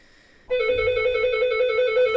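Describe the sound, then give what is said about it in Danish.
An electronic doorbell rings with a bright, sustained tone that trembles in rapid even pulses, loud and alone without any talking. “Jeg ringer simpelthen på døren nu.”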